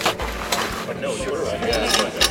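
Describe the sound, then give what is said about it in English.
Mechanical grinding and ratcheting from a machine pulling up old airport carpet gripped by a clamp, a dense steady clatter that runs through the whole clip. “I'm hooking the clamp to the carpet so the machine can pull it up.”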